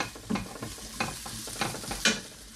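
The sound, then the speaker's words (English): Cooked, cooled rice added to a hot pan and stirred: several scraping, clumpy stirring strokes over a faint sizzle, fairly soft. “So you've already cooked and cooled your rice, importantly. And we're going to re-add the rice to the pan.”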